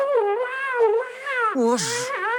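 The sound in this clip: A cat gives drawn-out, wavering yowls in a steady string of tones. Near the end the pitch drops, and a short breathy, hiss-like burst comes with it.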